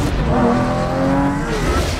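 A Lamborghini car drives off with a loud, throaty engine roar that builds over about two seconds and stays strong throughout.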